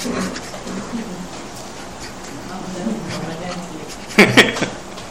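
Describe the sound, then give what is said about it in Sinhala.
A dog gives three quick, sharp yips near the end, rising out of steady background noise. “හැබැයි බල්ලෙක් නම් ඉන්නවා රෙ.”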